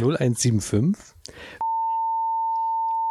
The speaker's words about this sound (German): ich hoffe, ich vergesse die Nummer nicht rauszupiepen